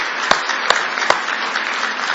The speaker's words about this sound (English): Give the Lord a big hand clap of praise tonight.